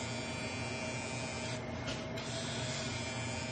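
A handheld facial beauty device runs continuously after being switched on and pressed to the face following oil application, giving a steady electric buzz with a constant tonal hum at an even loudness, briefly dulling in its upper hiss midway, with no voices.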